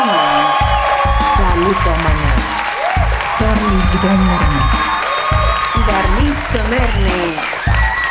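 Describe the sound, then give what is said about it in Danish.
Audience applause and cheering fill Bremen Teater, a loud, continuous wash of clapping with whoops and shouts layered on top, holding steady for the whole stretch. “Hjertelig velkommen til Bremen Teater. Giv en stor hånd til dårligdommerne.”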